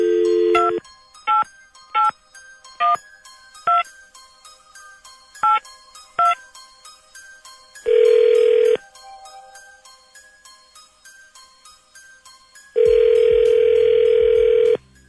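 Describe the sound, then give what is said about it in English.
Seven short touch-tone dialing beeps come in an uneven rhythm, then two long, steady telephone ringing tones follow with a pause between them. No voices are heard. “All right, let's find out. Dialing at random.”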